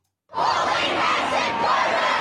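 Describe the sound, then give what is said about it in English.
Crowd of student protesters chanting slogans at a rally against far-right politics in an Australian city; after a short silence, loud massed voices burst in together and keep up a sustained, shouting roar. “Crowds were chanting expletive-laden slogans in Sydney, Melbourne, Hobart, Adelaide and Canberra.”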